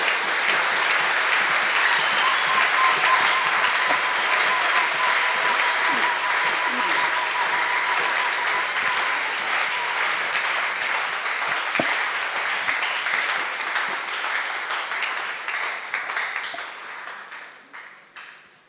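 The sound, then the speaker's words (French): Congregation applause at a church service, clapping for the Lord: dense, steady clapping holds for about seventeen seconds, then thins and fades out at the end. “Acclamons God. Le Seigneur. Let's clap for the Lord.”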